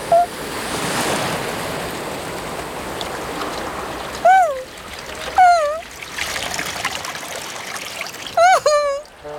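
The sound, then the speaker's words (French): A big wave rushes in and splashes into water as a broad, surging wash of noise, followed by three short, squeaky, rising calls over quieter water. “Voilà une grosse vague.”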